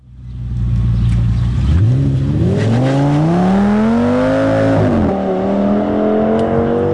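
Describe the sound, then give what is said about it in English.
A car engine accelerates hard and loud on its own, its pitch climbing steadily over several seconds. There is a brief dip near the end before the revving continues at a high, sustained pitch. “That is the sound of a car, isn't it”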